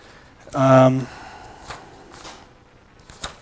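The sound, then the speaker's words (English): Pages of a book being turned: a short voiced murmur, then a few soft, brief paper rustles spaced apart. “Let's flip to the next page where it says Paul's writing.”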